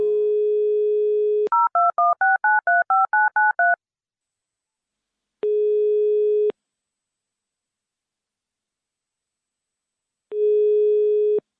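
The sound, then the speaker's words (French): Telephone keypad tones as a number is dialed, a quick run of short beeps after a steady dial tone, followed by two longer flat tone bursts separated by silence. “Agathe, compose son numéro, s'il te plaît.”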